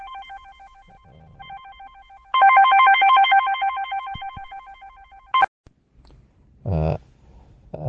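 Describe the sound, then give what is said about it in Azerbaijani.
A telephone rings with an electronic, warbling tone, first in two short bursts and then in one long, loud, sustained ring that cuts off abruptly. “Zəng gəldi sadəcə hə.”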